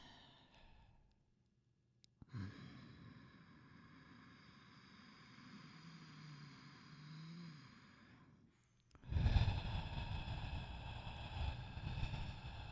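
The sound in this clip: Slow breathing during a breathing exercise: a long, drawn-out inhale lasts about six seconds and is followed by a louder, rushing exhale, like a deep sigh. There is no speech.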